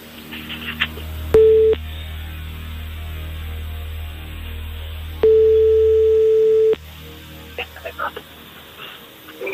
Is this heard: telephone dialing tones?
yes